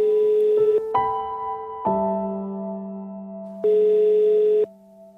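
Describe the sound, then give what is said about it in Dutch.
Telephone tones sound on an outgoing call as a sequence of steady, clean electronic tones that step between several pitches, with one tone returning near the end before fading to a quieter hum. “Vandaag ga ik bellen met Karel Muschoot.”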